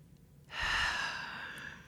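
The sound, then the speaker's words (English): A person takes one long, deep breath in down to the belly, an airy inhale that starts suddenly, swells, then slowly tapers off, with no talk over it. “just like take a nice deep breath all the way down to your belly.”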